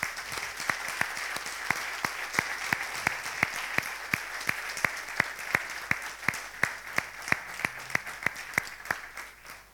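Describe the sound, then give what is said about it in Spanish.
A church audience applauds, many hands clapping together in a steady, even rhythm. Sharp, regular claps run through a dense wash of applause for the whole stretch, with no voices standing out. “Vamos a dar un aplauso al Señor”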